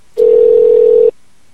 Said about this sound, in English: Go ahead and dial up that number if you could, please